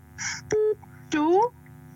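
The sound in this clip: A telephone keypad tone as the star key is dialed: one short, steady beep, with a voice briefly heard before and after it.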